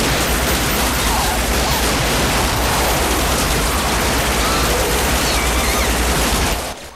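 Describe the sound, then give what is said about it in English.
Gunfire from several men opening fire together in an audio drama scene fills the stretch as a dense, continuous burst of shots that blur into one loud roar, then cuts off abruptly just before the end. “The man succeeds in throwing her off and the rest of the men open fire on her.”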